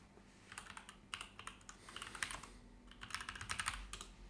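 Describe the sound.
Keyboard typing as a word is looked up in a web search: several quick bursts of rapid, light key clicks separated by short pauses, fairly quiet and with no voices.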